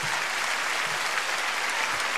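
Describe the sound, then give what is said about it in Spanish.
Audience applause in honour of a country's rescued workers, a dense, continuous roar of clapping from many hands at a steady, even level with no distinct breaks. “Después aplauso grande para estos hermosos trabajadores de nuestra patria.”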